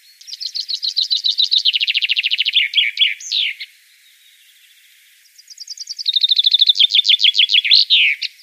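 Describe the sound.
Two bursts of bright, high-pitched bird song are separated by a short pause. Each is a rapid series of repeated notes that descends and ends in a trill, clear with no other sound.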